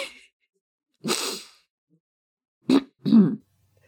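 Someone coughs and clears their throat after breathing in saliva. A few short, harsh, loud bursts are separated by silence, and no speech is heard.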